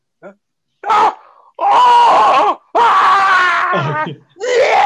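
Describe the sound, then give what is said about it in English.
A man's voice imitates a man screaming in gruesome pain: several loud, drawn-out wailing moans separated by short pauses, with a brief cry at the start. “it's just screaming for like 3 minutes of him in gruesome pain”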